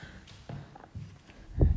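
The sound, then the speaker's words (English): Footsteps walk down a hallway with a lino floor in a disused small hospital or retirement home, a few soft, irregular thuds that stay faint against a low background hush. “So it's we're walking down the hallway now.”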